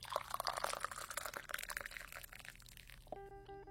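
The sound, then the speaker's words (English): Tea poured while hot, a quiet, splashy, gurgling stream lasting about three seconds, followed by a brief sustained musical tone at the end. “Come and sip this tea because I'm pouring it while it's hot.”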